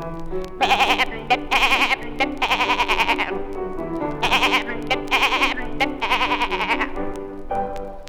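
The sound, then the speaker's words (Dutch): A groomed pet goat bleats in a series of loud, wavering bursts with a shaky, quavering tone, separated by short pauses, with no other voices. “En streelt ze het lieve diertje, dan blert de geit uit dank.”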